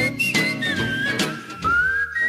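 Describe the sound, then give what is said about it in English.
Whistling of a lively tune: a clear, bright melodic line that glides between held notes, with a fuller low backing sound underneath throughout. “Yes, it's whistling whistleblowers with the courage to step forward and whistle.”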